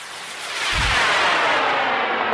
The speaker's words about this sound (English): And with that, we retreat back a safe distance to watch the rocket launch into a crystal clear desert sky with no wind.